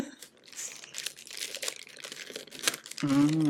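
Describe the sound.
Gift wrapping paper crinkles and tears as a present is unwrapped, with many quick rustles and crunches, and then a voice starts speaking near the end.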